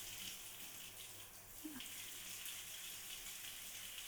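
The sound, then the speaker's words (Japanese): Warm water runs from a tap with a steady, faint, even hiss that continues without a break. “うん、あったかいの出てきたっす。じゃあ流しますよ。”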